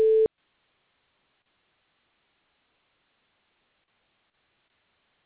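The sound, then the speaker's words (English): A voicemail recording tone sounds as a single short, clear, steady mid-pitched beep lasting about a quarter second, then gives way to silence. “Record your message at the tone. Press any key or stop talking to end the recording.”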